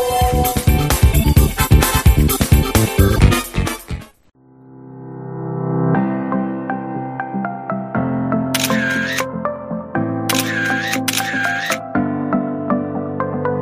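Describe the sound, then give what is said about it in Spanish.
A photo camera shutter snaps three times, each a crisp bright click with a brief mechanical whir, heard over sustained musical tones after a louder rhythmic music passage fades out. “Cogemos ya nuestra cámara fotográfica para hacer ese clic y sacar la foto de la semana.”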